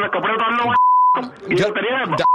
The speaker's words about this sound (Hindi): आपने फोन काट दिया